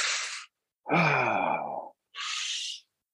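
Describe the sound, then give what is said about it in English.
A voice imitates heavy breathing with three loud, forceful breaths separated by short silences. Two are hissing and airy, and the longer middle one is a deeper, voiced sighing exhale. “it's like making me breathe heavy so that I can appreciate every breath that I'm taking”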